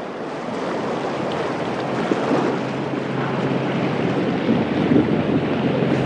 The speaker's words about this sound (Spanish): el Elinora surcó rápidamente las aguas del Gran Belt. La noche era oscura. Soplaba una fuerte brisa y el mar estaba algo picado.